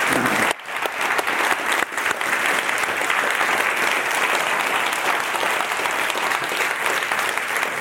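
Audience applause breaks out after a brief pause and holds as a dense, steady wash of clapping from a large crowd, loud and even to the end.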